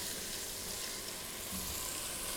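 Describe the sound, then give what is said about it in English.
Onions and cumin seeds sizzle in a pan over medium-high heat as they are stirred, giving a steady, continuous frying hiss that holds evenly from start to finish. “The onion, just stirring here. The smell of the onion and the cumin seed already is such a wonderful combination.”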